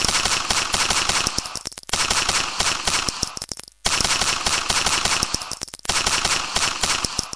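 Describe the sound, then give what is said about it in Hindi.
Bursts of automatic gunfire, from machine guns along a mountain army post line, rattle in rapid, loud volleys with brief pauses between them. “दिन के सन्नाटे में कभी यूं भी लगता था कि कहीं कुछ नहीं, तभी इसी सन्नाटे को चीरती गोलियों की आवाज”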